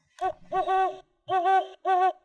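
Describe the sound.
A human voice imitates a great horned owl, giving several deep, hollow, steady-pitched hoots in a broken rhythm, with short gaps between them and no other sound.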